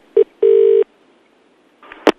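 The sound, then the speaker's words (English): Telephone keypad tones sound as a number for a pizza place is dialed: a brief beep, then a longer steady tone, then after a pause a faint burst and a sharp click. “Okay, so they're on hold. Let's phone pizza place number 2.”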